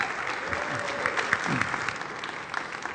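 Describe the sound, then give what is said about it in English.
Warm applause from a morning gathering welcoming a preacher, an elder, to the front. Dense, steady clapping continues evenly throughout with no talk. “So would you put your hands together and give a warm welcome to Holly as she comes this morning.”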